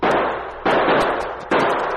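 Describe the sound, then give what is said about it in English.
Three loud gunshot reports in a radio drama shootout. Each is a sharp blast followed by a long, sustained roar that fades slowly before the next shot, with no voices. “The shots were coming from behind the huge trunk of a fallen tree, well screened by bushes and shrubbery. The sergeant returned the fire.”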